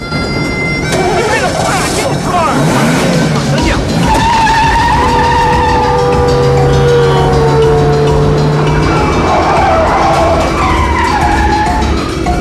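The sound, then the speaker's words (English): A car speeds down a street during a chase alongside a passing train, its engine roaring steadily with tire skidding and squealing mixed into a dense, continuous wash of sound that stays loud throughout. “Now on one knee, he looks around and notices the car speeding down the road”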